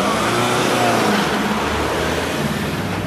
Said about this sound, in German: Der schwarze BMW darf weiterfahren, rollt motorröhrend die 300 Meter bis zum Goldenen Löwen